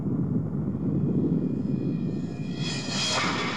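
An aircraft engine roars as the plane takes off, a steady low rumble running throughout before a bright, hissing whine swells up strongly near the end.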